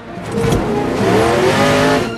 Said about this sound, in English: All the drivers flick switches and speedo needles shoot round dials with the revving of engines. All the faces of the drivers are serious with concentration. The crowd rise up to a standing position as the cars purr towards the starting line.